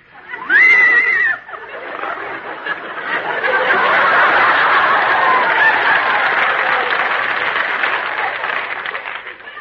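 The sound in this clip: A horse whinnies once at the start, a short, high, shaky call, followed by a long swell of audience laughter and applause.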